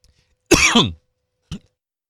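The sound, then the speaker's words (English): Coughing after choking on saliva, a loud, harsh two-part cough followed a moment later by a single short, quieter cough, with near-silence around them. “Excuse me. Goodness, choked on my own saliva.”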